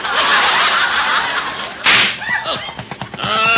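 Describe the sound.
Comedy radio sound effect of a car tyre blowing out: a loud, steady rushing hiss, then a sharp crack, followed by audience laughter.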